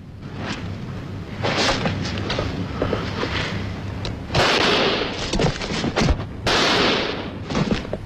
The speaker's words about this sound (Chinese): 这桩惨案的策划者杰克小姐，在暴露了真实面目之后，开枪打死她的情人，接着自杀。